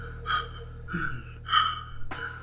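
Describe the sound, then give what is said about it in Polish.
A voice imitating the heavy panting of an old man sitting on a hospice bed: four rasping, breathy gasps at a fairly even, slow rhythm, moderately loud over a low steady hum. “na łóżku siedzi stary mężczyzna i dyszy”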